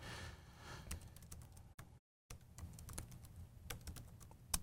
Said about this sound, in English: Suddenly, I can't type anymore. Oh, there we go. I was typing the wrong command.